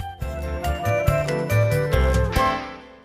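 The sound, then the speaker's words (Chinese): Bright chime tones signal to turn the page in a children's read-along book. About six clear bell-like notes ring in a quick sequence, then the last one fades out gently. “听到这个声音，要翻到下一页哦。”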